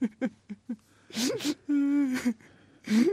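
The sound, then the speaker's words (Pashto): A person cries in distress, with several short, broken sobs followed by longer, wavering wails and catching breaths, loud and uneven throughout. “ژاړه مه، او نه ژړه هم کومه ګټه ورته کوي.”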